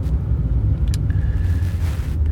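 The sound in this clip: Car road noise during a commute: a steady low rumble and drone of tyres and engine continues throughout, without talk.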